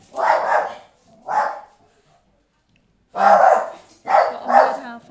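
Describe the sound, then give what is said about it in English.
A dog barks loudly and alone, in several barks split into two bursts with a pause between them. “There's a dog.”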